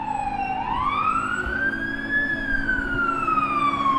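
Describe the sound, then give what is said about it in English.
A backup fire truck siren passes with a loud, steady wail that dips, then climbs slowly and drifts back down over the low rumble of traffic. “Backup fire truck passing right now.”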